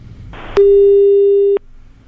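A telephone call ringing on the line: one steady, low-pitched ring tone lasting about a second, preceded by a sharp click, with no talk.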